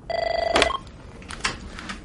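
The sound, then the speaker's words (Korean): A telephone rings on an outgoing call to a police complaints line with one trilling electronic ring burst, cut short by a click, then faint line noise. “이곳으로 전화를 걸면 되는데요.”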